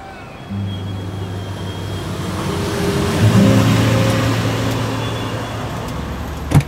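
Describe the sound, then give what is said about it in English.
City street traffic: a steady low rumble of engines and road noise with a few low hums, growing louder midway as a vehicle passes and then easing off, with a short knock near the end. “I heard the hustle and bustle of the city streets”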